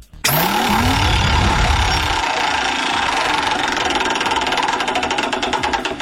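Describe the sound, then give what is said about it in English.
A prize wheel spun during a game segment gives a loud, rapid, steady ticking that runs for several seconds after a dense whooshing rush at the start. “Let's spin the wheel and see if we can win you a prize.”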